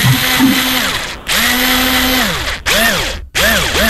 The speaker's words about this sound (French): Je pense que c'est une visseuse.